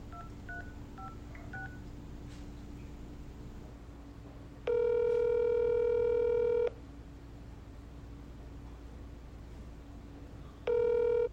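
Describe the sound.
Telephone dialing and ringing: a few soft keypad beeps early on, then a loud steady ring tone lasting about two seconds, a pause, and the start of a second ring at the end, over a low background hum.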